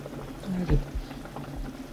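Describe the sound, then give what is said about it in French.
Veal blanquette simmering in a pot gives a soft, steady low bubbling, while a person speaks briefly over it partway through. “Et de la blanquette de veau. Oh. Vous voyez, c'est en train de cuire, de mijoter.”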